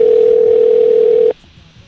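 A telephone dial tone plays as one steady, loud, unbroken tone. It cuts off abruptly partway through, and only a low hiss remains.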